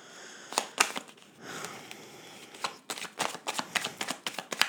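A deck of cards being shuffled for a card reading: many rapid, crisp riffling bursts, some quick and clustered and a few longer rustling passages, moderately loud with no talking.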